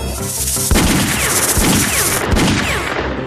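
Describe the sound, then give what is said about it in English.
Rapid gunfire from a video game as the player shoots at attacking rattlesnakes: a loud, dense volley of overlapping shots and sharp booms that continues steadily without pause. “No! I couldn't switch directions! Ooh, one of them rattlers bit you! Shut up! I couldn't switch directions! I shot too fast.”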